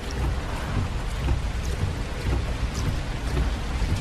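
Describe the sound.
Steady heavy rain in a film scene set in a car during a downpour: a dense, continuous hiss with low rumbling underneath and no voices.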